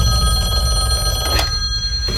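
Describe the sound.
A telephone bell rings with a bright, steady metallic trill through most of the short clip, then stops near the end, with no voices.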